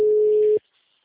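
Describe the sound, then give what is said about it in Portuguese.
A telephone ringback tone on an unanswered call: one steady mid-pitched beep lasting about half a second, then cut off abruptly into silence. “Tá só chamando.”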